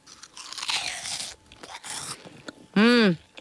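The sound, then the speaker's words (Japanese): Crunchy ring-shaped snack being bitten and chewed: a couple of bursts of dry, crackling crunching with short pauses between them, then a brief voiced hum near the end. “今袋を開けて上から眺めると、わっかわっかわっかわっかわっかいっぱい入ってます。はい、結構個数入ってますね。じゃあちょっとね食べてみたいと思います。ちょっと BGM 下げまして、いただきます。”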